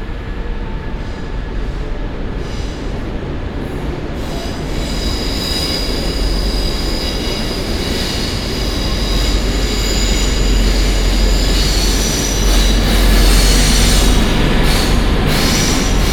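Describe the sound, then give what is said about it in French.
A train pulls in at a station platform beside track 4: a loud, steady rolling rumble with high metallic wheel squeal that swells slightly toward the end, with no voices. “Destination de Louvier-la-Fange de 10h10, arrivant dans quelques instants, voie 4”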